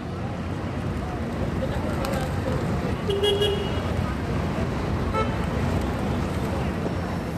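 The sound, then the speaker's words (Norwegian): Yellow taxis on Taksim Square in Istanbul, where steady roadway traffic rumbles along and a short horn toot cuts through about midway. “går livet som det pleier på Taksimplassen i Istanbul. Gule taxier kjører tutende forbi.”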